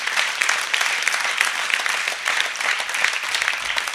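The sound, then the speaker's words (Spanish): Applause from a church audience during a service: steady, dense clapping fills all four seconds at an even, moderately loud level, with no talk over it. “Dale un fuerte aplauso a Dios.”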